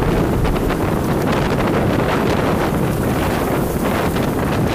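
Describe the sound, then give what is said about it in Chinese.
Wind roars from a desert sandstorm turning into a snowstorm as temperatures drop toward minus 20 degrees, a loud, steady, unbroken rush of buffeting noise that fills the whole moment with no letup. “一瞬间，从沙尘暴到暴风雪，这样的天气骤变十分罕见。”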